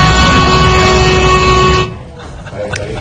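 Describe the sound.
A long, steady vehicle horn honk holds at a constant pitch for almost two seconds, then cuts off abruptly. Only quieter, faint sounds follow.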